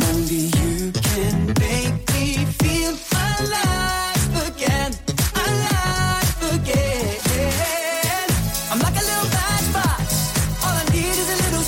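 Funky R&B pop song, Austria's Eurovision entry, with a sung lead melody over a steady, punchy beat and full band backing, loud and continuous throughout.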